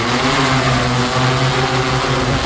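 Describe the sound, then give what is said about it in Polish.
A DJI Matrice 200 V2 drone carrying a mounted camera drones on in flight, a loud, steady propeller buzz with layered harmonic whine and no voices. “Ten statek powietrzny to DJI Matrix 200, wersja druga. To jest sama platforma i do niej mamy zamontowaną kamerę.”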